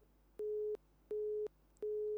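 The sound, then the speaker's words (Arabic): A telephone busy tone after a call disconnects: three steady, mid-pitched beeps of equal length, evenly spaced with short silent gaps, over a faint low hum. “فصلت المكالمة، يلا.”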